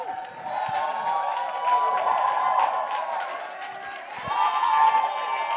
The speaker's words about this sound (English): Let's give it for the Lord. The hand clap, the shout.